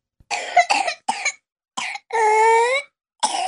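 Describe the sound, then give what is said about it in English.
Whooping cough from a 22-month-old baby with pertussis: bursts of harsh hacking coughs, then a long, loud, high-pitched whooping gasp for breath, and a final cough burst, with no speech. “That's the sound of pertussis, or whooping cough, in a baby of 22 months. She's having trouble catching her breath between the hacking coughs that mark this disease.”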